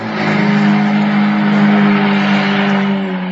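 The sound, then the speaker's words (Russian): An engine runs with a steady, even knock, holding one low pitch and a constant level from start to finish, with no voices over it. “Двигатель стучал так ровно, качало так уютно.”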